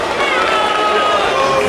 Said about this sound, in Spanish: Abucheo, lógico y normal